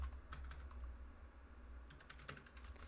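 Faint, quick typing on a computer keyboard, many light key clicks tapping in an uneven rhythm over low background hum.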